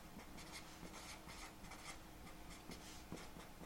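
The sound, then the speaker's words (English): Faint scratchy strokes of writing come in many short, uneven bursts of rubbing, quiet and with no talk over them. “I'm going to write his brothers don't like him.”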